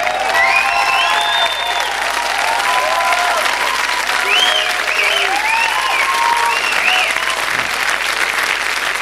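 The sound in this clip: Sustained applause from a crowd, dense and steady in loudness for the full nine seconds, with faint high whistling tones drifting over the clapping.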